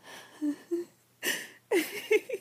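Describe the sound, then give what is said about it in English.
A woman whimpering and whining, with short soft high-pitched whimpers broken by breathy exhales and gaps of quiet. “These walls are pretty thin, and I'm sure you can hear me whining.”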